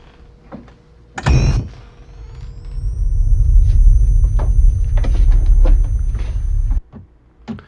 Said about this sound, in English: Each of us is wearing an unlicensed nuclear accelerator on his back. Yep. Let's get ready. Switch me on.